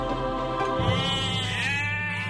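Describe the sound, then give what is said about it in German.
Sheep bleat in a pasture in Saxony's Vogtland: a drawn-out, quavering, nasal bleat with bright, wavering harmonics over a steady low background, heard alone with no talk. “Friedlich blöken die Schafe auf einer Weide zwischen Pfaffengrün und Limbach im sächsischen Vogtland.”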